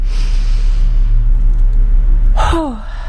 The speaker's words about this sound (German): Und ich atme 7-mal tief ein und jedoch schnell ausatmen. Also so.